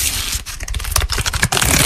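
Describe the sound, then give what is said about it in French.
Crinkling rustle of trading cards, a dense, loud crackle lasting about two seconds with brief dips and sharp clicks, and no voices. “Ce froissement caractéristique, c'est le son de l'espoir. L'espoir de tomber sur cette carte rare qui ferait de vous le roi de la cour de récré.”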